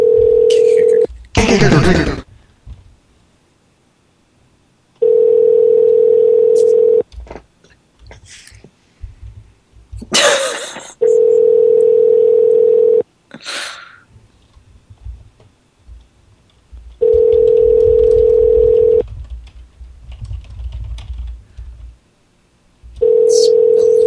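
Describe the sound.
Telephone dial tone and dialing while placing a call: bursts of dialing noise, then a steady low tone that repeats in long, evenly spaced pulses with a murmur of background noise between them.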